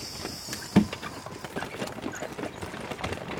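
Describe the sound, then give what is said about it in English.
Horse hooves clip-clop as a horse draws a hackney cab, many quick, evenly paced strikes continuing throughout, with one sharper, louder knock early on and no voices. “Can we take the hackney cab? Of course. Come on up.”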